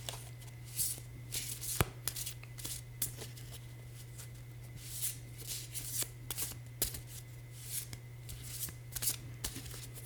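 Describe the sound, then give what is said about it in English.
Tarot cards being shuffled and flipped, heard as a quiet run of quick, papery riffles and soft snaps of card stock with no talking. “Let's flip a card.”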